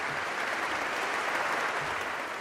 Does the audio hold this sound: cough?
no